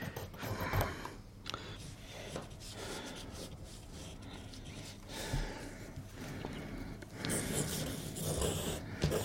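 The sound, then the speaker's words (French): Scratchy rubbing of a drawing tool on paper while sketching a figure's legs, a run of short, uneven strokes and scrapes at a soft, steady level throughout. “je suis en train de dessiner les jambes”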